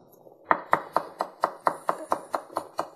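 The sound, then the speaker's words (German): Knife chopping fresh parsley on a board: eleven crisp, evenly spaced chops in a quick, steady rhythm after a brief quiet start, with no talk over them. “wenn ihr jetzt frische Petersilie habt, dann schneidet ihr die jetzt auch und, und hackt die dann auch.”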